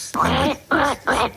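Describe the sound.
A human voice imitating a duck, giving three nasal, evenly spaced quacks in quick succession, each a short buzzy burst.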